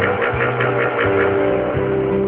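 Motorbike engine running as the rider slows to stop in the middle of a road, a steady low rumbling drone whose pitch shifts a few times, heard alone without talk.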